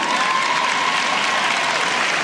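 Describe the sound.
An audience claps at a college commencement ceremony, a dense, steady burst of applause that stays even throughout.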